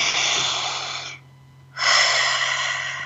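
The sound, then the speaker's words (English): A deep breath is drawn in audibly during a guided relaxation exercise: a breathy rush of air, a short near-silent pause, then a second strong breathy rush. “Eyes open, take a breath.”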